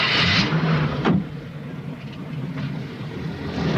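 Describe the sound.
A car drives off along a street, a low engine rumble with a steady hum. It is loud at first, eases off through the middle, then swells again toward the end, with no voices.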